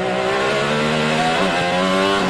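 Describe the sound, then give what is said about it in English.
An IndyCar race car engine roars continuously on the Detroit street circuit, a loud, buzzy high-revving wail whose pitch dips briefly midway before climbing again. “That's driver Kyle Kirkwood ripping his IndyCar around Detroit back in May”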